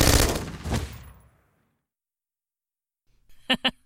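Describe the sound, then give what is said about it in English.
Gunshots in a tense standoff with an infected person: a loud opening blast with a long fading tail, a few seconds of silence, then two quick sharp cracks fired close together. “She's trying to get up! Stay down! I'll shoot again!”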